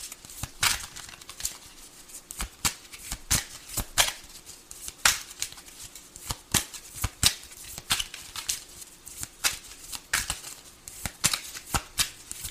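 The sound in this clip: Cards being shuffled for a reading: many crisp, papery riffling bursts in an uneven but steady rhythm, repeated throughout without any talk.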